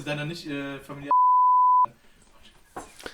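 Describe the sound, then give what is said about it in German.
A censor bleep cuts across spoken German as a single steady, mid-pitched tone lasting under a second. Talk runs before it and resumes right after. “Boah, Junge, das muss ich jetzt wirklich piepen.”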